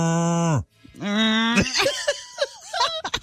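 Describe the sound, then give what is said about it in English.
A person's voice imitates a cow mooing, with one long, low, steady moo that cuts off, then a second moo that starts low and rises before breaking into brief, choppy vocal sounds. “Your cow sounds sick. Well, maybe a baby cow. No, that cow's maybe dying. A calf? That cow is ill.”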